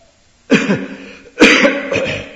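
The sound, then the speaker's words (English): A person coughing in two loud, harsh bursts separated by a short pause, each burst trailing off in a raspy rattle. “now I'm coughing. I'm allowed to cough.”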